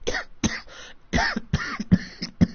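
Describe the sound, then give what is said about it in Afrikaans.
Coughing: a rapid series of many rough, throaty coughs. Each one is a sharp, harsh burst followed by a short voiced rasp, coming in an uneven rhythm with brief gaps between them. “Pas op vir hy hoesie.”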